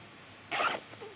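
Trousers are unzipped: a single short, bright rasp lasting about a quarter second, set against quiet surroundings.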